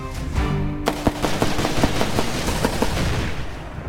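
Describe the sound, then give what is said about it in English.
Rapid machine-gun fire from a candidate shooting in a field, featured in a 2016 Missouri governor's race campaign ad: many sharp, loud bursts follow one another quickly after a brief tonal opening. “This is a campaign ad for the Missouri governor's race in 2016. The candidate's in a field holding a machine gun.”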